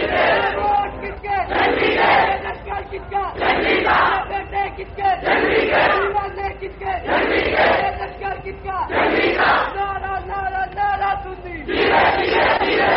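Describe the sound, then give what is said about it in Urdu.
A crowd chants slogans in unison before a religious speech, many voices shouting loud, rhythmic repeated phrases in regular bursts separated by brief pauses. “یہ میں تقریر سے پہلے عرض کرنا چاہتا ہوں کہ نعرہ زیادہ لمبا نہ کریں، پھر وہ تسلسل ٹوٹ جاتا ہے.”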